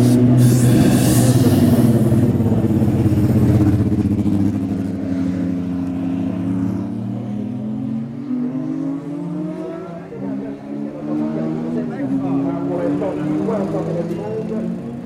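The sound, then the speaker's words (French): A Formula 1 car starts up and leaves the pits. Its engine gives a loud, dense roar that repeatedly revs and climbs in pitch, with voices heard along with it. “mise en route et départ d'une voiture.”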